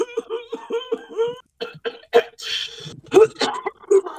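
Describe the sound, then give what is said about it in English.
A voice imitates a man clearing his throat: a short run of voiced grunting hums, then rough, raspy bursts of throat clearing and coughing-like hacks. “You can only hear the flickering fire as he clears his throat with the”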